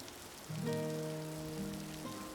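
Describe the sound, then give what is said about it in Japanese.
Spring rain falling, a soft constant hiss throughout. Sustained tonal notes enter partway through and ring over the rain to the end. “もう春だけどさ、雨が降ると冷えるね。”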